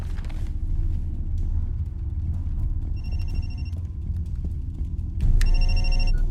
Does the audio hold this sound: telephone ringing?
yes